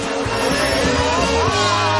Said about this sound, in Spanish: Da un volantazo para no chocar con el coche que va delante. Viene otro de frente y lo esquiva con otro volantazo.